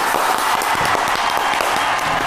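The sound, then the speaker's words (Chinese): Audience applause on a studio talk show as a biotech factory manager is welcomed onto the stage: loud, dense, even clapping that holds steady throughout. “好，我们掌声有请胡经理上场。”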